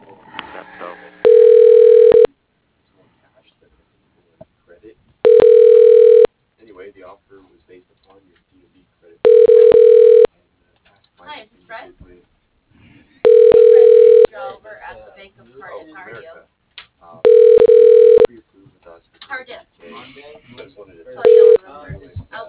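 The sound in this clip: A telephone ringback tone plays while a business call is transferred to voicemail: five steady, evenly spaced buzzing rings about four seconds apart and the start of a sixth, with voices talking in the gaps.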